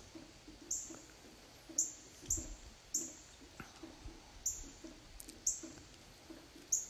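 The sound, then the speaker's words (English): Faint, high-pitched bird chirps repeat many times at a fairly steady rhythm during rain, short sharp calls over a soft background patter. “Can you hear those birds chirping? Those are the ones that's been here all day.”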